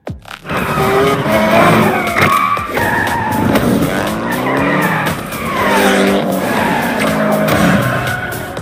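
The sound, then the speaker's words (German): Race cars skid through a night street race in Tokyo in a racing video game, with loud, continuous tire squeal and engine roar whose pitch keeps sliding up and down throughout. “Wie wär's mit einem Straßenrennen bei Nacht in Tokio?”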